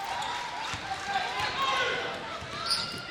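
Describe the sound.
A basketball dribbled up the court during a game, its bounces faint beneath steady crowd noise.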